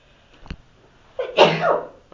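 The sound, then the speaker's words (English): A single loud sneeze, with a quick sharp intake building into an explosive, breathy burst that trails off, preceded by a brief faint click. “I knew I was going to sneeze”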